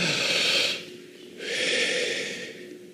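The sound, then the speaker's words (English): A deep breath taken during a guided breathing exercise: a long airy inhale, a brief silent hold, then a slower, steady exhale. “Can you just take a deep breath? Do that with me. In deep, hold,”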